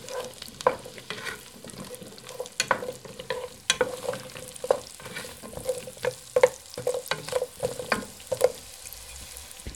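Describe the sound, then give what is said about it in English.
Radishes frying and being stirred in sizzling butter in a pan: constant crackling sizzle broken by many sharp clacks and scrapes of the spoon against the pan in an uneven rhythm, with no voices. “just add the radishes. Stir to coat.”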